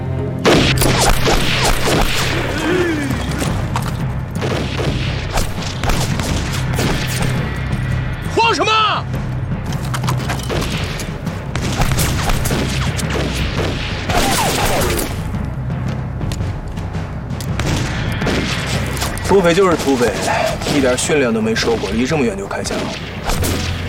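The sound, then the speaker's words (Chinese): Rifle gunfire in a war drama, as bandits open fire from far away. Repeated sharp shots and heavier booms crack through the scene, scattered irregularly among people talking. “土匪就是土匪，一点训练都没受过，离这么远就开枪，哼，他们枪太落后了。”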